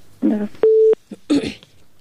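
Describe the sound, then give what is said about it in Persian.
A single steady telephone dialing tone on a radio call-in line lasts about a third of a second, with brief voices before and after it. “فکر کنم بازم یک تماس داریم. خب تماس میگیریم.”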